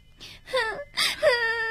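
A young child cries in a few wailing, whimpering bursts, each rising and falling, moderately loud with short breaths between them.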